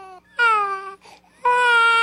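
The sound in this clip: Hungry infants crying in high, harmonic-rich wails: a short cry, then two longer sustained wails separated by a brief whimpering gap.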